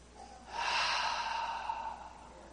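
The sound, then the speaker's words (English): A single long, deep cleansing breath taken during a church morning worship service: an airy, breathy rush lasting about two seconds, rising quickly, holding steady, then slowly tapering off, with no talking over it. “Deep cleansing breath, right, ladies? Deep cleansing breath.”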